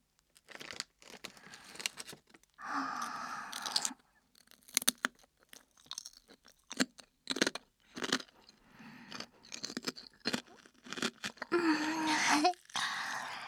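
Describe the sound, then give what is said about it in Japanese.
Someone chews crunchy food close to the ear, making many irregular, crackly bites and crunches at a fairly quiet level, with no talking. “耳元で聞かすかな。はーい、今度はこっち。食べるけん、よう聞いとってね。”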